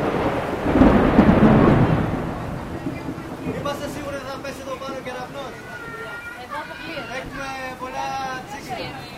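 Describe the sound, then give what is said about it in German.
Thunder rumbles loudly through heavy rain in a cloudburst at an outdoor event with tent roofs and speakers, probably in Greece. The rumble peaks in the first two seconds and the downpour then continues under people talking. “This rain is twice today for me. Zum zweiten Mal schon so ein Regen heute.”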